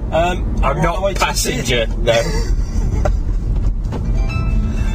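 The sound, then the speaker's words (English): A car being driven, heard from inside, produces a low, constant road and engine hum that runs beneath people talking throughout. “So I'm driving, so I'm not operating any handheld device whilst doing so.”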